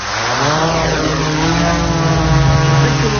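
A drone's propeller motors whir as it takes off, giving a loud, steady buzzing hum with layered tones that holds for the whole clip.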